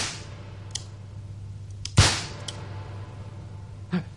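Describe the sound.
A single sharp pistol shot fired in a duel, a crisp crack with a short decaying tail, standing out against a low steady hum and a few faint clicks.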